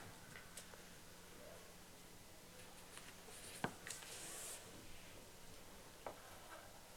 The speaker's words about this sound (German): Habt ihr beide fertig geschrieben?